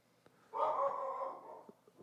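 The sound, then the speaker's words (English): A single drawn-out dog vocalization, faint and tonal, lasting about a second, with a few soft clicks before and after it. “That's my dog. You guys can hear the dog barking right now.”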